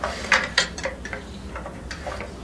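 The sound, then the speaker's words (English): Faint metallic clicks of a bolt being screwed into a toy car: two sharper ticks near the start, then scattered lighter taps and small rattles. “Go ahead, screw this in. Now first through this hole.”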